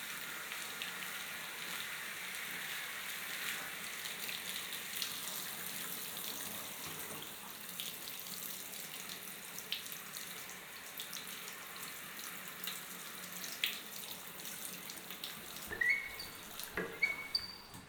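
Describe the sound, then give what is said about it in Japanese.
Water poured to rinse someone's back and shoulders: a soft, steady running stream that continues the whole time, with a few louder splashes and drips near the end. “肩の方まで流しちゃいますね。”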